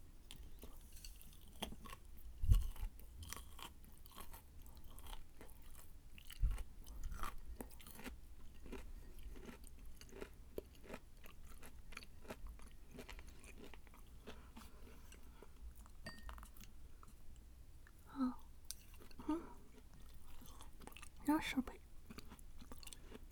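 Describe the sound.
Someone chewing zucchini, with quiet, moist crunching and biting sounds repeating at an uneven, steady pace.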